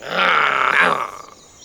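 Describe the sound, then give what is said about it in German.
A person voices an angry growl for a mouse, producing one rough, raspy snarl that holds for about a second and then trails away. “Also versuchte es die Maus noch einmal mit einem bösen Knurren.”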